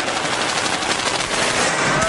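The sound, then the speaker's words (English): Machine gun firing in one sustained, loud burst of rapid shots with no break across the whole stretch. “Here's a machine gun, by the way. Shall I start it?”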